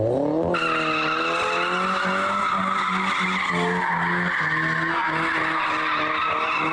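Tires screech loudly as cars drift on public roads, a sustained, steady squeal with a strong tonal whine that cuts in after a brief moment and holds at high volume throughout.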